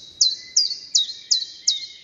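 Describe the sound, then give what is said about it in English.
Chiffchaff singing in a garden: five sharp, high chirps at an even, steady rhythm. Each is a quick downward sweep, clear and alone with no voices. “There's one in my garden singing today, the chiff-chaff, which is returning now to Britain and Ireland from North Africa”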